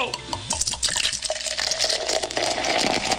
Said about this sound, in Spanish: Mire, mi gente, yo lo voy a tirar ese vasito ahí de agua fría, sí.